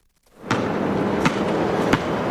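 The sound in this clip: Three sharp, evenly spaced thumps from a basketball bouncing on an outdoor court in Brooklyn, across from the Berry Street houses, over a steady background hiss.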